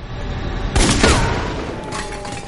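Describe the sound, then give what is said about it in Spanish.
Gunshots fired at a drone in a thriller film scene: a few loud, sharp bursts crack in quick succession, then one more shot follows after a brief pause. “Leo se vuelve y dispara al dron.”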